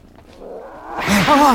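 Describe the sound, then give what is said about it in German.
A tomcat hisses at strangers in a toy shop: a breathy hiss swells up, then breaks into a couple of short, arching growling yowls. “Eine Katze. Ein Kater.”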